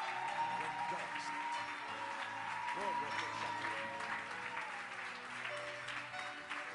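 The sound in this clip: A church audience applauds steadily with a dense, even patter of clapping, with voices and sustained tones rising over it.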